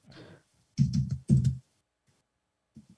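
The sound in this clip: Keystrokes clack on a computer keyboard in a few short bursts of quick typing separated by pauses, followed by a couple of faint taps.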